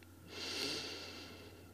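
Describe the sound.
A slow, drawn-out breath during a guided breathing exercise swells softly, peaks, then gradually fades. It is a single airy, unvoiced breath heard alone, without any talk.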